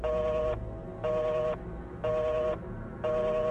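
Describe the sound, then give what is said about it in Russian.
Telephone beeps sound in the receiver after a call ends: four evenly spaced, identical tones, each about half a second long, separated by equal gaps. “В трубке раздались гудки.”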